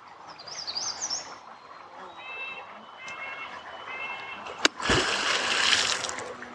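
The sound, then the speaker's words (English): A beaver smacks its tail on the surface of a wetland pond: one sharp, loud crack followed by a burst of splashing water. Birds chirp and twitter faintly before it. “did you hear that? There's a beaver watching us right now. That tail smack lets other beavers in the area know that we're here and potentially dangerous.”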